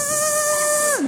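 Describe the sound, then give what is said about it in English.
A voice imitates a dentist's drill: a steady, high, nasal whine held for about a second, then sliding sharply down in pitch at the end. “I think in my dentist's office, they have, like, these paper-thin walls. Because walking down the hall, I could hear the machines going. Anybody, like, you just tense up when you hear the machine, you know? It's like, it sounds like this.”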